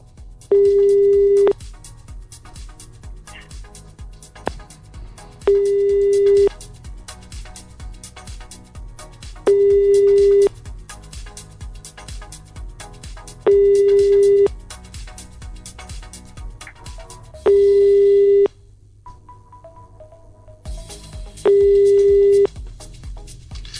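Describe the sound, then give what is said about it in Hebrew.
A telephone call ringing out unanswered: six long, steady, mid-pitched ring tones repeat at even intervals with gaps between them, over a low, faint background hum. “טוב, אז בואו נתקשר אליו.”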